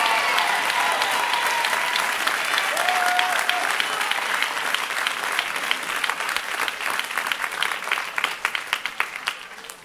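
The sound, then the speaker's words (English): An audience applauds during a church sermon: dense, sustained clapping from many hands. The level stays steady and full throughout before easing slightly toward the end. “I think this is for those who are clapping.”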